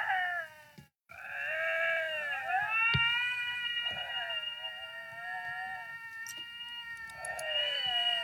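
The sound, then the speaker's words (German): Two lynxes meeting in the wild yowl at each other in long, wavering caterwauls. Their cries overlap and bend up and down in pitch, with one abrupt silent break near the start. “Weißt du, wie es klingt, wenn sich zwei Luchse in der Wildnis begegnen? Nein. Es klingt so.”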